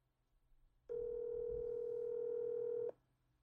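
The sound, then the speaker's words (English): A telephone ringback tone sounds while a call is placed: one steady, mid-pitched electronic tone lasting about two seconds, alone over faint background noise. “I'm going to call one of my buddies who's a producer. See if he buys it.”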